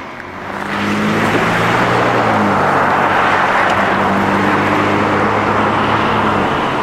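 Road traffic rushes past at the corner of Colton Boulevard and 19th Street West in Billings, Montana, on a bitterly cold, snowy day, a loud, steady roar of passing cars that swells after the first second and holds.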